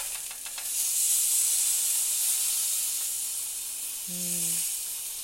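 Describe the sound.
Eggs frying in a pan give off a steady, bright sizzling hiss that swells after the first second and keeps going at an even level to the end, with no voices.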